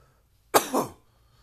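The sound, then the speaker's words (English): A person ill with Covid in quarantine coughs once, a harsh two-part burst with a sharp onset and a rougher, throaty tail, alone against near silence. “the cough, it still kind of hurts”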